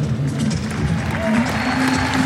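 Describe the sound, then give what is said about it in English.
Audience applause for the finalists after a women's tennis doubles final: a steady, dense wash of clapping that holds at an even level throughout, with faint voices beneath it. “And getting some round applause.”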